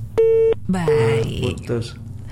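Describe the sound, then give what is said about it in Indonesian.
Telephone line tones on a radio phone-in as a call drops: two steady electronic beeps, with talking around and after them. “Terputus ya, mungkin bisa dicoba kembali untuk ada yang ingin bergabung melalui line telepon.”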